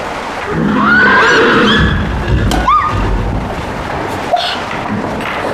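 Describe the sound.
A horse whinnies loudly in a wavering, high cry, followed by a dull thud and a few softer bumps.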